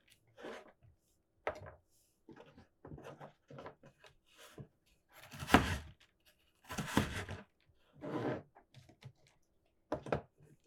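A knife finely minces carrots on a board, giving crisp, woody taps that arrive irregularly, sometimes singly and sometimes in short quick runs. The chopping is fairly faint and heard without voices.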